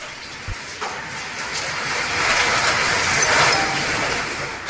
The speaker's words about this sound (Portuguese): imagina um cafezinho, você passando agora o café e saindo aquela fumacinha com esse barulho, ó.